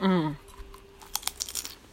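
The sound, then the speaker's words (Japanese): Potato chips crunch while being eaten, a few faint, crisp bites in a short cluster after a brief voice at the start. “違うポテチを食べて。”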